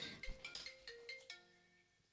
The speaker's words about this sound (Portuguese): Ui, a minha avó está ligar. Desligas e falas com ela depois.